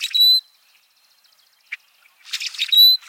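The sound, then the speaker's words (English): A rusty blackbird sings two high, creaky, squeaky phrases separated by a pause, with a brief faint note in between. “While it might sound like a door hinge that needs some grease, this is the song of the rusty blackbird.”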